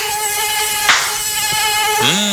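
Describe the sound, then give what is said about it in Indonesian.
Mosquitoes whine steadily around dirty clothes hung up indoors. Their thin, high buzzing drone stays continuous and fairly loud for the whole clip. “banget ya nyamuknya di sini.”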